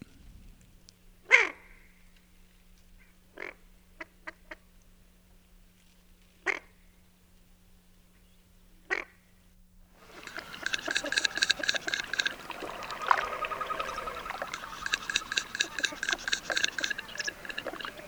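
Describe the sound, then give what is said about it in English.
Female Barrow's goldeneye ducks give low, throaty cook calls, faint and quiet: a few spaced single calls first, then a busier stretch of rapid, repeated notes. “the duck, the barrow's golden eye. Females traveling to and from the nest also often give a low, throaty cook, cook, cook, cook, cook sound.”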